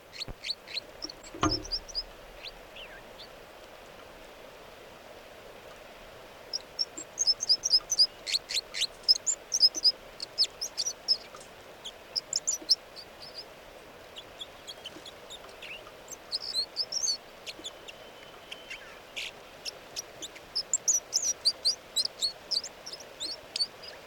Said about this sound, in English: these are the vocalizations of song of bird 305.